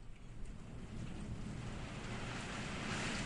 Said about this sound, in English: You hear that? That's the sound of every raindrop.